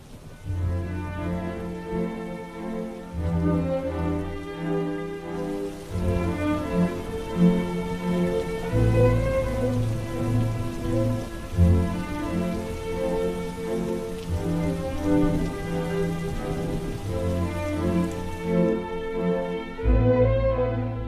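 Rain falls in a steady, continuous patter and hiss that lasts about twenty seconds, with a low tonal drone underneath.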